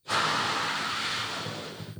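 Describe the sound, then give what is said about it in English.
A balloon being blown up in one long, forceful breath, a loud airy rush that starts abruptly and holds for about two seconds before tapering off. “Now keep blowing. Take another breath and blow it again.”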